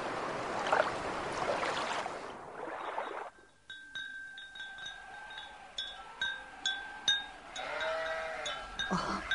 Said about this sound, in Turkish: Koyunlar da her tarafa dağıldılar. Ta tekkenin bahçesinin kenarına kadar gitmişler.